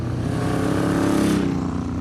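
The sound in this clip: A long motorcycle's engine gives a steady, deep rumble that holds a constant, throaty tone for about two seconds, with no voices.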